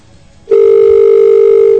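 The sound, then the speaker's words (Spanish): A telephone dial tone switches on abruptly after a brief quiet moment, then holds as one loud, steady, unbroken tone to the end. “Es el tono telefónico.”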